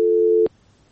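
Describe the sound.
A telephone busy tone follows a caller's dropped line: one loud, steady mid-pitched beep lasting about half a second ends abruptly with a click, then faint background hiss remains.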